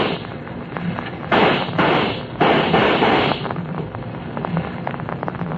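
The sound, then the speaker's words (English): Gunshots fired at a man: two loud blasts, each with a noisy decaying tail, stand out over a steady crackling background. “They shot him. Nothing but a Bible in his hand. They shot him.”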